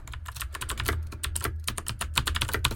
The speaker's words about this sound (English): So now I'm going to just type.